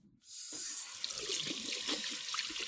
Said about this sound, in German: Hände waschen. Also hier rechte Seife.